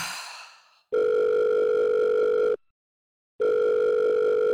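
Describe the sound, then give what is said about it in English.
Telephone dial tone as a number is dialed. A short fading hiss comes first, then two long, steady tones sound with a silent pause between them, clear and alone. “she sighed and dialed her brother's number.”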